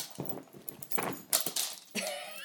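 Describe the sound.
A dog barks in a few sharp, loud bursts as it faces down a cat that refuses to run, its ears pinned back, with short pauses between the barks.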